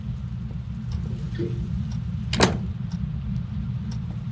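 A single door sound, one short sharp knock-like impact, standing out against a steady low hum.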